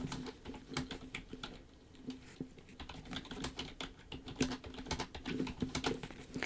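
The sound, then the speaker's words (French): Fingers type on a computer keyboard in a quiet, steady stream of many irregular keystrokes, with brief pauses between bursts of clicks. “Je le tape en même temps que je vous parle.”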